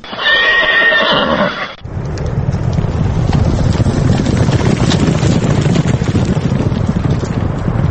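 A horse whinnies loudly at a horse race in Dushanbe with native Tajik and English horses, then gives way to steady rough noise that continues to the end.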